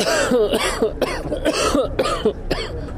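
Repeated harsh coughing from a patient with breathing problems blamed on polluted city air, at a hospital in Kabul; many fairly loud bursts follow one another in quick succession.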